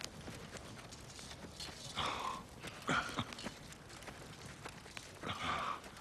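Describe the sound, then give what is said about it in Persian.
Horses' hooves clip-clop in many uneven beats, fairly faint throughout, with a few louder, breathier bursts scattered among the steps. “اسبا آمادن.”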